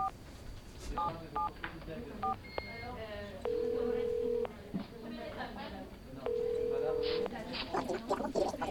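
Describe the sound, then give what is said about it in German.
A telephone number dialed for a call: a quick string of keypad beeps of varied pitch, then two long, level ringing tones separated by a short gap, over soft background noise. “Lass mich jetzt ganz kurz einen Anruf machen. Einen Anruf.”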